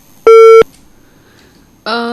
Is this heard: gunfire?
no

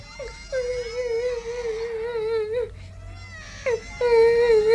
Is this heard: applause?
no

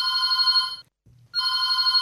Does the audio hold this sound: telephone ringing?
yes

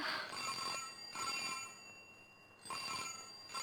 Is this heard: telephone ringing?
yes

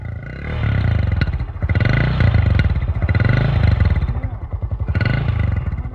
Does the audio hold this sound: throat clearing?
no

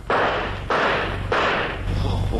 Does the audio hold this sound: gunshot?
yes

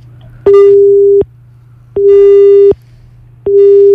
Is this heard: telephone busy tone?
yes

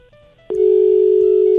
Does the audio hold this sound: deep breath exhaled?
no

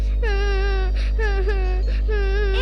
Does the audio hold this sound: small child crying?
yes

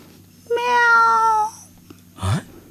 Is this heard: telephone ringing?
no

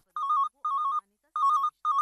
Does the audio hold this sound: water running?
no

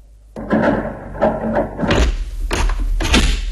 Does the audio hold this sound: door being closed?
yes

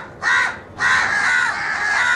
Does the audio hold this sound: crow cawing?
yes

